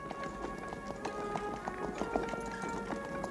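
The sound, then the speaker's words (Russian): Hooves of six horses pulling a carriage clop along in a quick, steady stream of light taps, faint and continuous throughout. “Обоз продолжает движение. Карета запряжена 6 лошадьми белой масти.”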